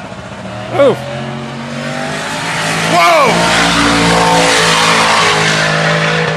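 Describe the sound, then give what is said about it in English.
Engines roar as a Jeep Grand Cherokee SRT8 races a pro stock drag car at a drag racing event, with loud, sustained engine noise and sharp sweeping pitch bends as the cars pass; a person exclaims once over the din. “That was a Jeep Grand Cherokee SRT8 up against like a full-on like pro stock.”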